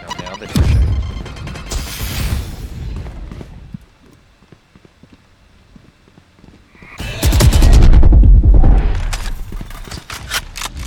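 Grenade explosions and rapid gunfire crash through a video game match in two loud, dense bursts, separated by a quieter stretch in the middle.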